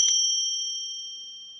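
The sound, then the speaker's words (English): A small, fairly old silver bell is struck once and gives a clear, pure, high ringing tone that sustains and slowly fades on its own. “a couple little bells that I want to show you guys. This one is made of silver,”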